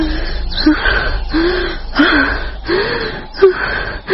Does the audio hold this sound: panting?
yes